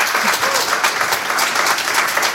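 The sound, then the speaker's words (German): Loud audience applause welcoming guests at a talk event: a thick, continuous clatter of many hands clapping at an even level for the full stretch. “Genau, ihr dürft klatschen, müsst ihr euch nicht schütteln.”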